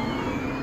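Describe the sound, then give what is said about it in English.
A fully charged electric Skoda Enyaq driving away, heard as a quiet, steady whooshing hum with faint, thin high whine tones running through it. “And fully charged Fiona driving away in her electric Skoda Enyaq.”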